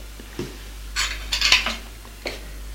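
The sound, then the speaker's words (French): Crockery clinks as a plate is picked up and set down on the floor, a few short, bright knocks of dish and cutlery sounds spread over a moment of quiet, with no talk. “Elle prend l'assiette, la met à terre.”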